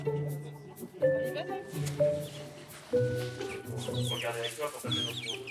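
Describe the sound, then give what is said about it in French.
Chicks peeping, high thin chirps mixed with clucking fowl sounds, heard under and between people talking. “C'est des poussins.”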